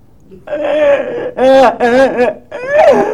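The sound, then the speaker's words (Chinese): A child's crying, imitated by a voice: drawn-out wavering wails that break into several short, strained sobbing bursts, loud and alone. “别哭别哭，怎么回事？”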